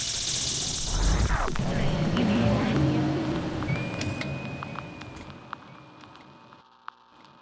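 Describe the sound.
An airplane passes overhead, a broad low roar that swells within the first seconds, holds, then fades steadily toward near silence, with a few faint clicks near the end.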